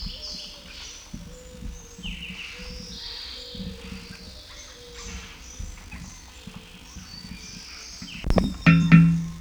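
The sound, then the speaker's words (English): Starlings call overhead among eucalyptus trees, giving a scattered, fairly faint run of high whistles and chirps over a low background rumble. “Starlings overhead and eucalyptus.”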